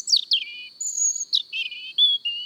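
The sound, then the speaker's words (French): A European robin sings high-pitched in a forest in the evening: thin, bright warbling phrases broken by short pauses, several quick chirps and trills, clear with no voices. “Ce soir, sur le chemin de la forêt, on a d'abord entendu le rouge-gorge avec sa petite voix très aiguë.”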